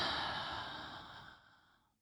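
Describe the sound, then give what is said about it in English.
A deep breath drawn in during a guided relaxation exercise: one long, airy, breathy inhale that gradually fades out. “Take a deep breath in.”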